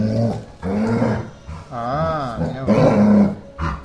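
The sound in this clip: A dog growls and grumbles in long, wavering vocal bursts. Throaty rumbles mix with a few rising and falling whine-like tones, loud and continuous, with brief pauses between the phrases.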